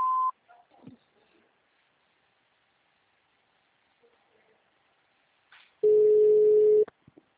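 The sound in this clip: An automated phone-line signal tone sounds on a call to an office extension menu: a short tone at the start, near-silence with faint fragments, then one long, loud, steady beep followed by a few tiny clicks.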